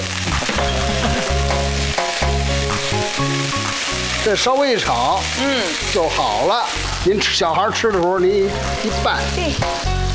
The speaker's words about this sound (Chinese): 这稍微一炒，就好了。